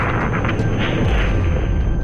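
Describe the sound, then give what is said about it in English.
Deep, continuous roaring rumble of the Space Shuttle Challenger exploding shortly after liftoff, a loud, dense, boom-like roar that stays steady throughout with no voices. “We have a report from the flight dynamics officer that the vehicle has exploded.”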